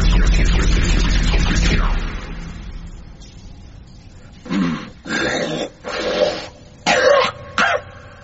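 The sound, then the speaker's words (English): Gruff throat clearing from an unseen beast in the dark of a ship's hold: a series of rough, growling bursts of uneven length that follows a stretch of steady noise that fades. “What is this beast that haunts us in the darkness of the hold? Whatever it is, it's got a sore throat.”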